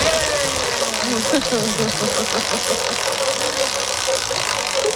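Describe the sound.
A quiz game wheel given a big spin ratchets out rapid mechanical clicks. The chatter is continuous and fairly loud and stays even across the whole stretch.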